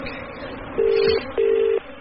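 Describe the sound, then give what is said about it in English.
Telephone being dialled, giving two steady electronic tones of equal length separated by a short gap, over a faint background hum. “Now, I'm going to phone security.”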